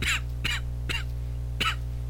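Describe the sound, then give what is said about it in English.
Four short, harsh coughs come in separate bursts, three close together and one after a pause, over a steady low hum, with no talk. “Sorry, I can't talk without coughing.”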